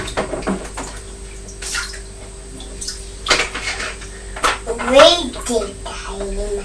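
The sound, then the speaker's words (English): Water splashes through a green toy sieve in a child's water play, coming in uneven bursts and trickles while an adult and a child talk. “And I'll hold the green sieve and we can pour it through that,”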